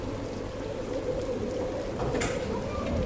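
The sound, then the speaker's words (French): Storm rain and wind beat against closed windows in a steady, dense, hissing wash that stays level throughout without voices. “C'est sombre, la tempête fait rage, la pluie et le vent battent contre les vitres fermées.”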